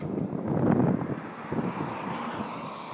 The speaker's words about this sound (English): And I can hear that wind right now. I apologize. I'm just testing it out to see how distractive that wind is for you, the listener.